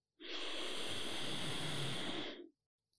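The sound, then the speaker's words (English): A single deep inhale during a relaxation meditation for exam stress: one steady, airy breath lasting about two seconds, even and fairly loud, heard alone and ending abruptly into silence. “And take a deep breath in.”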